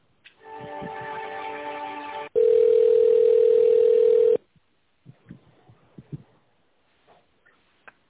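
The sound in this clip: Telephone line tones during a call transfer to a secretary: a buzzy, harmonic tone for about two seconds, then a louder, steady pure tone for about two seconds, followed by faint clicks and line noise.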